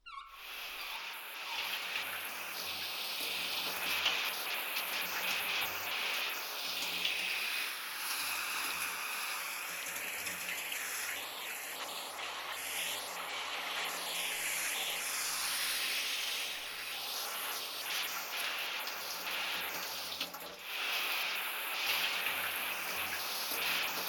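Water is poured to rinse during bathing, making a continuous, hissing splash that holds steady for the whole stretch, with no talk over it.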